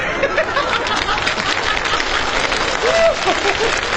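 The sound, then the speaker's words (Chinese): Audience applause at a comedy crosstalk performance: dense, steady clapping that fills the whole stretch at an even loudness. “您还给他鼓掌？”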